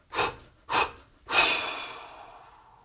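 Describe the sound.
Deep mouth breathing during a shoulder-relaxation exercise: two short, sharp breaths followed by a longer, forceful exhale that fades out slowly. No one speaks over it.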